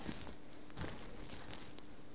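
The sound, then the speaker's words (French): Hands press down on soaked wool felt to force it to absorb water, giving faint, scattered wet crackles and soft squelching ticks with no voices. “je vais apposer mes mains et puis je vais forcer la matière à absorber toute cette eau quand même. Donc, j'appuie.”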